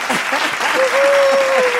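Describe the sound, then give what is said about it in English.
Applause sound effect, a steady burst of dense clapping throughout, with a sustained tonal note joining over the second half and brief voices at the start. “Check this out. We got to do a clap. Oh, it's not working. Come on, here we go.”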